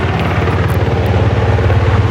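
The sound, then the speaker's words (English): A helicopter flying right overhead above a wildfire, a loud, continuous low rotor thrum with a fast steady beat under a broad engine roar. “There's the helicopter right there.”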